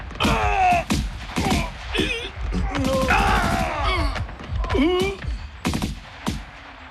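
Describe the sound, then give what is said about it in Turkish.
Gunfire in a combat scene as soldiers clear an area: loud bursts of shots mixed with shouting and groaning voices, continuing steadily throughout. “Silah sesleri kesildi.”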